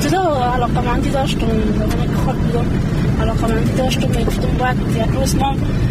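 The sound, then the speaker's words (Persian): A car driven by a woman along the road leading to her village gives a steady, loud engine rumble throughout, with people talking inside over it. “او در جاده‌ای که بر روستایشان می انجامد رانندگی میکند و همزمان با ما گپ میزند”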